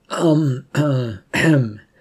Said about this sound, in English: went over carefully and cleared his throat so as not to scare the man.